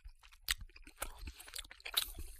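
Quiet, wet smacking and chewing of a sticky Capri-Sonne-flavoured sweet, with a few sharper clicky smacks among softer mouth sounds and no talk.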